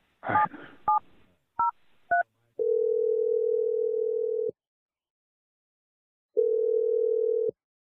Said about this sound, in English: Now we're going to dial the number.